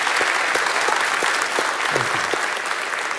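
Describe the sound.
Warm applause from a church fellowship gathering welcoming a guest, a steady wash of many hands clapping that holds at an even, fairly loud level from start to finish.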